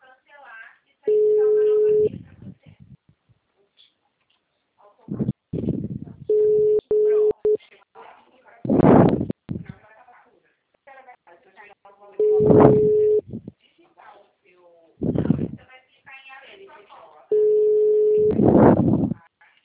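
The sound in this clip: A telephone busy tone follows a dropped call: steady, mid-pitched beeping comes in several separate bursts, alternating with a person talking.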